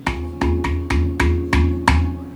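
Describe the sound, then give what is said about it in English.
Several sharp strikes on the hole in the hollow underside of a Celtic minor piece, each a deep, watery bass thump followed by a lingering ringing tone, struck at an even, steady pace with no voices. “But this hole, you can hit the hole and it creates a sound as well, which sounds like this.”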